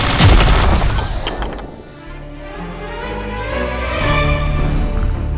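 Rifle gunfire bursts out loudly at the start as a rapid cluster of sharp cracks, then drops away into a low rumbling tail before a steady tonal backdrop swells up again.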